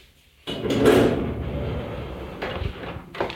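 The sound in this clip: A door with a contactless swipe-card entry opens with a sudden heavy clunk, then a sustained low rumble of movement and a couple of softer knocks as it swings.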